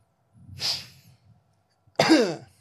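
Throat-clearing and coughing in two bursts: a soft, breathy cough, then after a pause a louder, voiced throaty rasp whose pitch slides downward.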